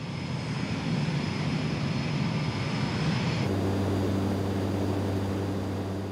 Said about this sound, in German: Auch das Wartungsteam ist kurz vor der Landung in Singapur.